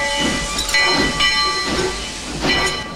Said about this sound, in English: The train's wheels start to turn.